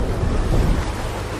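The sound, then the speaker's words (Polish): Steady rushing roar of water filling a canal lock around a waiting boat at the Żerań lock, with water coming in from the Żerań canal. The sound is continuous, low and broad, with no distinct separate events. “Teraz czekamy na śluzowanie. Jesteśmy w śluzie Żerań. Musi się woda napełnić z kanału żerańskiego.”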